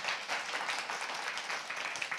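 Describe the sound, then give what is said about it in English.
Audience applause for a volunteer group thanked for putting up Chinese Lunar New Year decorations, fairly quiet, steady clapping that continues evenly throughout. “So let us give a round of applause to the Mandarin Ministry”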